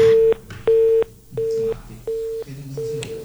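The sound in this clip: A telephone line tone follows a caller's dropped call, with five evenly spaced, steady mid-pitched beeps pulsing on and off over a low hum.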